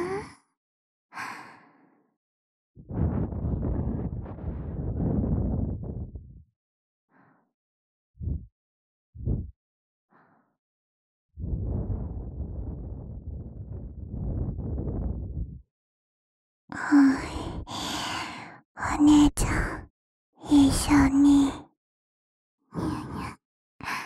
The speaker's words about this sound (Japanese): お耳ふうふうするにゃ